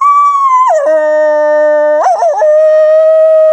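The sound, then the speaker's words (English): A human voice imitates a wolf howl in one long tonal call. It starts high, drops to a low held note, jumps back up through a wavering break, and settles on a steady mid-pitched tone, loud and alone. “There are a lot of melodies in the wolf sound too.”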